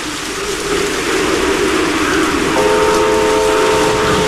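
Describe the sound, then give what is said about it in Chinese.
A train running through heavy rain on a test run over a rebuilt, collapsed railway section. The rumble and rain hiss stay steady and loud, and a sustained whistle-like tone joins partway through. “不久以后，詹天佑夜以继日赶修的铁路坍塌路段终于重新试车了。”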